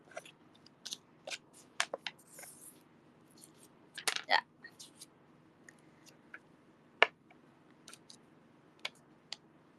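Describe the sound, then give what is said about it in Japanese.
Nail stickers being handled make quiet, scattered crinkly clicks and papery rustles, mostly sharp and brief with a few louder clustered bursts in an otherwise near-silent background. “あれちょっと待って、あ、うるさかったよね、この ネイルシールさ、絶対さ”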